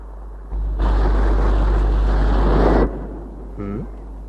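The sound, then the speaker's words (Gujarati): Sea waves crash against the shore and spray high at high tide. A loud, broad, rushing surge lasts about two seconds over a low rumble, then dies back. “પાણીના મોજા કેવા ફૂફાડા મારતા ધસમસતા કિનારા સાથે પછડાય છે. અને ફુવારાની જેમ કેટલા ઊંચા ઉછળે છે.”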